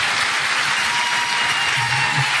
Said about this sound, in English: Big round of applause for our panel.